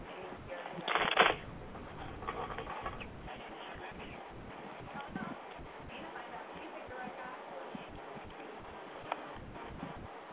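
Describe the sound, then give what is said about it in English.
Tarot cards being shuffled during a reading: a brief, louder riffling burst near the start, then soft, continuous papery rustling for the rest, muffled and low in level. “All right, I'm shuffling the cards now.”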